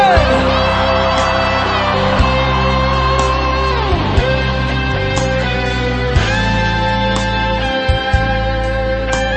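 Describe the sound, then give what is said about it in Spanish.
A crowd shouts loudly at a Christian music event, a dense, continuous roar of voices with sustained tonal music underneath throughout. “más fuerte. ¡Grita fuerte!”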